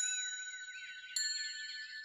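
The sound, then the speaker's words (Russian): A leper's small hand bell jingles faintly, giving a high, sustained shimmering ring with one sharper strike about midway as the tone rings on. “Колокольчик отрывисто звякнул.”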